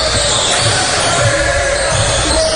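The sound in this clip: Basketball dribbled on a court during a Fort Recovery high school game at the start of the third quarter, a few low, evenly spaced bounces under steady crowd noise.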